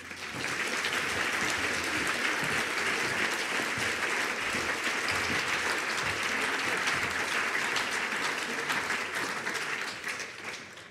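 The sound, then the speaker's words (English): A crowd gives a speaker a warm round of applause at a talk. Thick, sustained clapping keeps an even level, then thins and fades near the end. “Please, would you put your hands together and give a warm hey welcome, welcome to Kathelijne Koops.”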